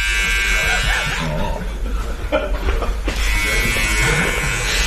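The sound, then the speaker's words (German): An electric shaver buzzes steadily as it shaves facial hair, running over the face and nose, a continuous droning hum that lasts the whole clip with a voice briefly over it. “mir werden wieder die Intimhaare hier rasiert. Also im Gesicht natürlich.”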